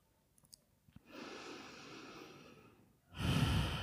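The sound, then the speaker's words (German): A deep breath during a guided relaxation exercise: a few faint clicks, then a long, soft breath in, then a louder, rushing breath out through the open mouth. “nimm tiefen Atemzug ein und durch den geöffneten Mund aus.”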